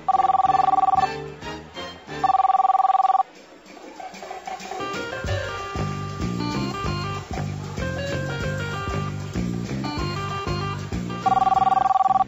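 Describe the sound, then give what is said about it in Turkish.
A telephone rings in a Turkish radio drama scene, a steady, bright ring in three bursts, two close together at the start and one at the end, with busy background sound filling the gap between them. “Yine telefon çalıyor.”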